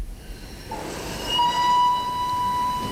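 The Vienna express train departs a station with a low, steady rolling rumble. Partway through, a sustained whistle-like tone enters and holds to the end.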